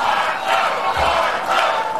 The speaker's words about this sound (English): There's the crowd chanting for Florida Senator Marco Rubio.